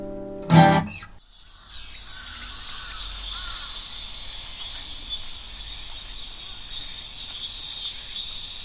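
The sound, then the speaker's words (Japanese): Cicadas sing in summer at Meiji Shrine in Tokyo: a loud, steady, high-pitched buzzing drone that starts after a short burst of another sound and carries on unbroken to the end. “聞いていただいたのは東京の夏、明治神宮で撮ったセミの声です。”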